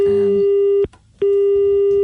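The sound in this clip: Telephone busy signal from a failed phone call: a loud, steady mid-pitched tone breaks off once for a short gap, then starts again and holds.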